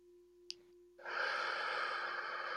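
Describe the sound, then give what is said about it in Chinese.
A deep breath during a guided meditation exercise: after a brief click, a long, airy inhale begins abruptly and holds steady over a faint, continuous hum. “一个深呼吸，吸气，”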